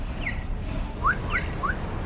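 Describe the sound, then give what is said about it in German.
A pedestrian crossing signal chirps to show people may cross, sounding a few short, bright, rising electronic chirps at uneven intervals over steady low street noise. “That would be the traffic signal letting people know that they can cross.”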